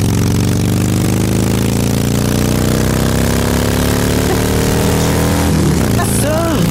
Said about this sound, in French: Sa réponse sur Facebook, elle, c'est le bruit d'une moto quand elle passe à côté de moi.